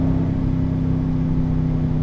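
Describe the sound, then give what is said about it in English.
A car engine drones at about 4,100 rpm in fourth gear under light throttle, a loud, steady low rumble with a constant tone. The note holds level with no clear rise or fall. “Give it a little throttle. That was 4,100.”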